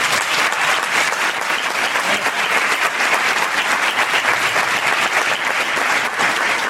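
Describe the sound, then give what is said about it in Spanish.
Loud, steady applause from an audience welcoming guests at an evening entrepreneurship event, with dense clapping that runs without a break and no talking. “vamos a dar un fuerte aplauso a los invitados.”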